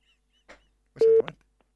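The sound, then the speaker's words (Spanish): A Movicom mobile telephone being dialed gives a single loud, short electronic tone lasting about a fifth of a second, set in otherwise near silence. “El teléfono Movicom.”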